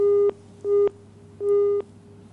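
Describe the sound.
A busy tone sounds after a dropped phone-in call. There are three beeps at one steady pitch over a low hum, and the last beep runs longer than the first two. No talk is heard.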